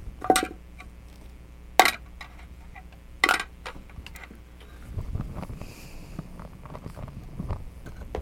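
A dropped spoon gives three sharp, bright clinks spaced evenly over a few seconds against a low steady hum, followed by softer rustling and clatter.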